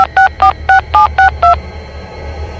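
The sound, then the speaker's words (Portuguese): A telephone being dialed: six evenly spaced, loud touch-tone beeps in quick succession, then the line goes quiet. “Ok, eu ligo pra ele.”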